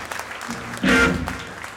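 Audience applause and a cheer greet a band's drummer as he is introduced at a live concert. The clapping swells into a short, louder burst midway, then settles back to a lower level.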